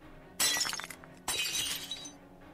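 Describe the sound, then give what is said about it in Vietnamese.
Glass of an oil lamp shattering as it is smashed against a head: two loud bursts of breaking, the second about a second after the first, each decaying into a scattered crackle. “Thằng Hai Đông vội vàng chụp lấy cái đèn dầu, đập thẳng vào trán của bà già.”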